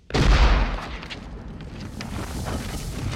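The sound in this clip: An elephant gun is fired down at undulating ground: one sudden, heavy blast with a deep low thump, followed by a long rumbling decay that fades slowly.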